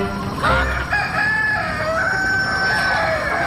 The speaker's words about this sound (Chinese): 哇，你嚟打我啊！咁恶嘅鸡公。